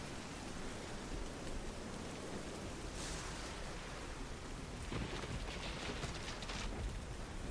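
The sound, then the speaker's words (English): Steady rain pours down as a storm rolls past, a dense continuous hiss at an even level throughout, with no voices. “But we can't go anywhere in this rain.”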